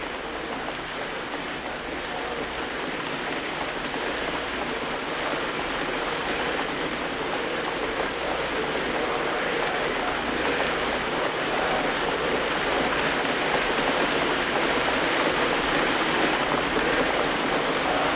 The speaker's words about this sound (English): listen to the sound of the rain. The sound of the rain needs no translation, no explanation.